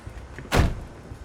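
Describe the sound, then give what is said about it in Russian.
A van door slamming shut, one sharp, solid thud with a brief rushing tail against quiet background noise. “Кто-то закрывает двери фургона.”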